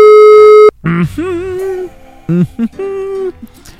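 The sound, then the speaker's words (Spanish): A telephone call tone: one steady electronic beep lasting under a second, followed by voices with shifting pitch. “Así que en este momento realizamos la llamada. Vamos a ver quién está del otro lado.”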